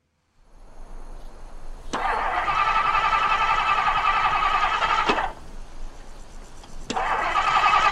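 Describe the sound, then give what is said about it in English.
An old car's engine cranks but fails to start, with two loud, sustained cranking bursts that each begin with a sharp click, separated by a brief pause, with no voices. “Can you see what's wrong with it yet? Nope. Seems to be doing everything it should do at the motor. Yeah, but it isn't. It isn't starting.”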